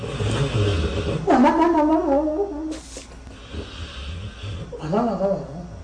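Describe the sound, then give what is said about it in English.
A dog snores with steady, rough breathing and snorting throughout, broken twice by louder whiny, wavering tones. “That's a dog snoring.”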